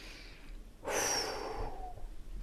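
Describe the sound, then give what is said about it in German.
A deep breath drawn in through the nose: a loud, rushing airy sniff lasting under a second, with softer breathy air continuing around it. “Atme tief durch deine Nase ein und durch den leicht geöffneten Mund wieder aus.”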